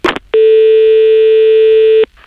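Telephone line tone after the caller hangs up: a brief noisy burst, then one loud, steady, buzzing tone held for under two seconds before it cuts off.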